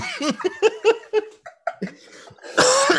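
A person coughs and sputters after inhaling hot chocolate into the lungs: a rapid run of short, choking coughs mixed with breathy, laughter-like bursts, ending in a louder, harsher rush of air.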